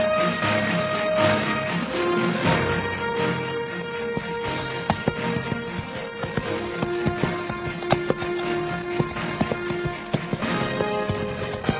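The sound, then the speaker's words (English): Horse hooves clop steadily as a ranger rides into a ranch yard at sundown, the hoofbeats turning sharper and more distinct in the second half. “It was sundown when Ranger Chick Beaudry rode into the ranch yard.”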